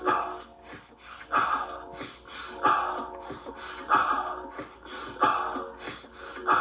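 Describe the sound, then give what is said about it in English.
Breathwork breathing: cycles of two quick nasal inhales, first into the belly and then into the chest, each followed by an exhale. The breathy sniff-and-release pattern repeats several times in a steady rhythm at a fairly soft level. “Inhale number one is to the belly, inhale number two is to the chest, and then it's an exhale. Both inhales should be done through your nose, and you put it all together, it sounds like this.”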